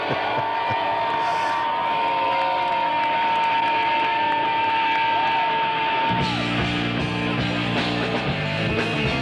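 Concert crowd cheers, yells and whoops as a rock band is welcomed at a 1990s Seattle concert on a bootleg recording. The roar is loud and continuous over a steady high tone, and band music starts in the last few seconds.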